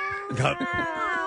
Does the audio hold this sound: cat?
yes

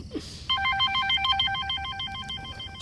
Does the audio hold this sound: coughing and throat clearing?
no

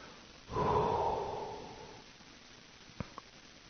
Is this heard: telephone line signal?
no

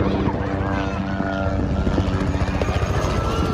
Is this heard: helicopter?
yes

